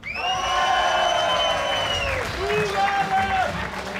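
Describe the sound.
Audience applause and cheering after a handshake, a steady roar with high gliding whoops riding over it for about four seconds.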